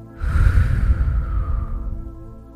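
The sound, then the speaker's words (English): A deep breath drawn in and then released, heard as one long, airy breath sound lasting about two seconds, fairly loud and alone with no talk. “So we're going to take that deep breath in and release.”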